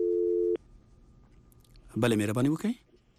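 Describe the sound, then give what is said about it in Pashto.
Electronic telephone line tone signalling an incoming caller on a call-in line: one steady buzzing tone that cuts off abruptly after about half a second. A brief burst of speech follows after a pause. “یو یا دوه محترم اوریدون کې راسره په لاین کې شته دي، د هغوی ټلیفون ته به ځواب ووایو.”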